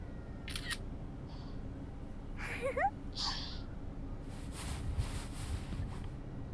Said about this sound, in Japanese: あ、写真撮っとこっか。 いくよ。